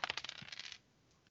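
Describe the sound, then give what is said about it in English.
APBA baseball dice thrown against a hard wooden desk make a quick burst of sharp, clattering clicks that lasts under a second, followed by near-silence. “That's the sound of APBA baseball dice, gentlemen, being thrown against a hard wooden desk.”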